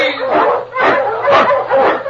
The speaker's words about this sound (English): The Wonder Dog King, swiftest and strongest of Eskimo lead dogs, blazes the trail through storm and snow for Sergeant Preston